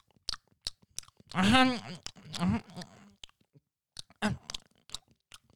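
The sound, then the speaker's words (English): A voice imitating someone chewing gum: wet smacking clicks and mouth noises, with a drawn-out voiced sound in the middle. “just like the chewing of it is just fucking disgusting, let alone it in your eyes and mouth.”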